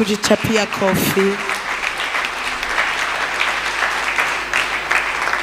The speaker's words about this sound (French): Et est-ce que vous pouvez acclamer d'abord pour vous-même?